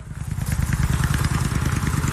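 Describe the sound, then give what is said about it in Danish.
A motorcycle engine runs at a rally, giving a loud, steady stream of rapid, evenly spaced low thumping pulses with a faint clattering edge. “Men lige med min motorcykel, så... Ej. Den kan jeg nu ikke undvære lyden på.”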